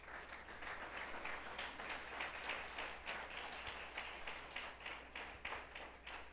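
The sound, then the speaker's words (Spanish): Faint, steady applause from a church audience during a sermon, a soft continuous patter of many hands clapping with no voices over it. “Dale el aplauso al Señor, aleluya.”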